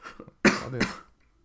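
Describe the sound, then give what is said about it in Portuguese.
A man coughs after choking: a few faint throat sounds give way to two harsh, loud coughs in quick succession, then a short fading rasp. “Ele... Até se engasgou porque ele está a pensar em comprar dois.”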